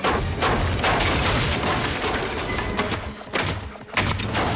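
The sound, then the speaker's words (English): A motorized nail gun drives nails into a house's wall molding, heard as rapid, sharp percussive bursts that repeat with a few brief pauses between volleys, loud and hard-edged. “Inside the house, Lars crawls along a wall molding, nailing the motorized nail gun.”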